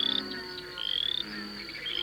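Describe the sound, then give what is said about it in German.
Bullfrogs croaking at night over a steppe plain: a low, droning croak runs steadily beneath pulsing, high-pitched chirping trills from cicadas. “Die Ochsenfrösche brüllen.”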